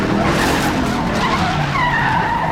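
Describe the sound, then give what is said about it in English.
Tires skid as a suspect's car is struck during a highway police chase and slides onto the shoulder. A loud, continuous rushing scrape holds for the whole stretch, with faint squealing tones near the end. “The shot sends the suspect skidding onto the shoulder.”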